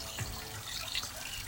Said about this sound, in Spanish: retornamos a las calles de la ciudad y, Víctor, mira, voy a acercar el micrófono para que se dimensione la cantidad de agua que está cayendo en este mismo punto.